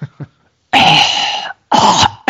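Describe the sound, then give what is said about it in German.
Loud coughs and throat clearing come in a few harsh, rasping bursts, two of them long and heavy after a couple of small catches, with no talk. “Entschuldigung, hab nur was im Hals gehabt.”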